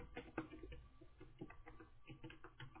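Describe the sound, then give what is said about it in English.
Typing on a computer keyboard: many faint, irregular key clicks and soft taps that patter on steadily. “And you can type in A H I T graduate.”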